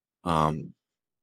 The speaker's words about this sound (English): I just kind of open my mouth wide and I just do the biggest, I guess it's almost like an inhale and an exhale at the same time.